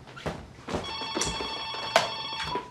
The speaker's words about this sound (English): She answers the phone.